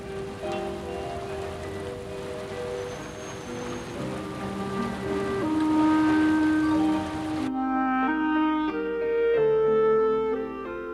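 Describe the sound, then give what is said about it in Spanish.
Steady hiss of falling rain under sustained musical tones. The rain cuts off abruptly partway through while the melody carries on alone. “No te preocupes, seguramente pronto dejará de llover.”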